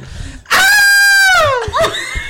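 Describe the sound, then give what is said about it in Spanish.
Ned Flanders from The Simpsons screams: a single loud, high cartoon cry that holds steady, then slides downward, with brief talk just before and after. “Es el grito de Ned Flanders.”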